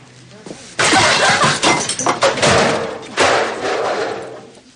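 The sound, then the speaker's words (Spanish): Objects swept by hand off a clinic's front reception counter crash down: a loud clattering burst of bangs and thuds, then a second heavy crash about two seconds later, the noise gradually dying away. “Tras unos segundos, tira de un manotazo todo lo que hay encima.”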